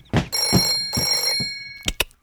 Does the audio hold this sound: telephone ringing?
yes